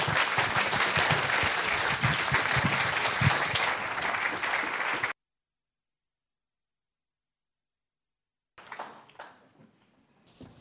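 An audience applauds to welcome a guest and his wife. Dense, steady clapping lasts about five seconds, then silence, then a few brief quieter noises.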